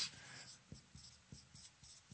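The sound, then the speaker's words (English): Handwriting of a word: faint, scratchy pen strokes in a steady series of short bursts, with no talk. “I just told you that diakonos, I'm writing it in Greek, hang on. Write it in English just because I love you guys.”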